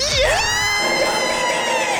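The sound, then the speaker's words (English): A crowd cheers wildly after a bicycle kick goal in a football match, opening with a rising shout and settling into a loud, sustained roar of many voices. “Yes! The crowd's gone wild. They've gone absolutely nuts over there.”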